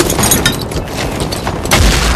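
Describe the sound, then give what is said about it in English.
A booming grenade blast tossed into a bunker doorway during a trench assault, mixed with dense crackling bursts like gunfire and a heavy low thump near the end. “The others cover as Horvath tosses another grenade in the doorway.”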